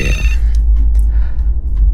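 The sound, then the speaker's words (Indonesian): A phone ringtone signalling an incoming WhatsApp call: a short, bright tonal burst at the start that cuts off abruptly, leaving only a low hum. “Sebentar ya, ini ada yang WA.”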